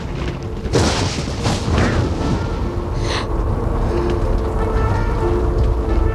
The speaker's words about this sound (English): Dark clouds roll over their heads, and rain splashes on the game.